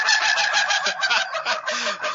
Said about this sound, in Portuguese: cadê o galo aí, cadê o galo sorridente aí?